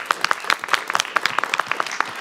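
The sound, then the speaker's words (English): A round of applause breaks out at a board meeting for a member of a district office. The clapping comes from a modest group, moderately loud, with sharp individual claps in a brisk, uneven patter. “Let's give a round of applause to Andrew.”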